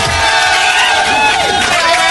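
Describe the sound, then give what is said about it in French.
A crowd cheering and applauding in a radio studio during a birthday celebration, heard as a loud, continuous, dense roar of voices and clapping with no pauses. “je crois que là on peut lui faire une standing ovation. Il est là, il réclame des applaudissements.”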